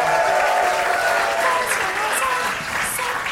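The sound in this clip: Audience applause and crowd cheering as a comedian is welcomed on stage at a comedy show: loud, dense clapping with a few high whistles and shouts mixed in, easing slightly near the end.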